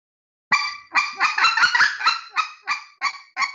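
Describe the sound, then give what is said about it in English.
Single clucks blown on a goose call of the kind used for specklebelly geese, a series of about a dozen loud, nasal honking notes that speed up into a quick run in the middle, then slow again to evenly spaced clucks. “It's just single clucks that I can express excitement by getting faster, and I can express getting calmer by slowing the tempo down. And here's what clucks sound like.”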